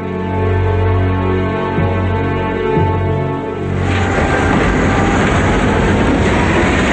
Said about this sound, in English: A train locomotive with one freight car passes